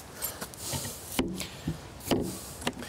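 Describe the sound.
A door is shut after dogs have gone into the house: a few light knocks and rattles lead up to two sharper wooden thuds. No one talks, and the sounds are moderately quiet.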